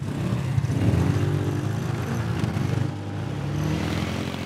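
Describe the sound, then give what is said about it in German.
A hot rod car on a hot rod tour in Frankfurt drives off and accelerates, its engine giving a loud, steady, throbbing low rumble with no talk. “Wir fahren noch ein paar Meter. Wir geben jetzt mal Kette. Und geben noch mal Gas.”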